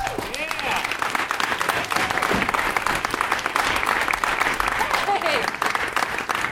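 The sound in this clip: An audience at a live comedy festival show applauds loudly to welcome a speaker onto the stage. The clapping is dense and sustained, with whoops and cheering voices mixed in.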